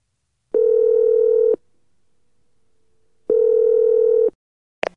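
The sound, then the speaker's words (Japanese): Telephone ringback tone on a call: two steady, buzzing one-second tones separated by a long silent pause, then a brief sharp click at the end. “Now, the telephone call will begin. After the phone is answered, begin with a greeting and then explain why you are calling.”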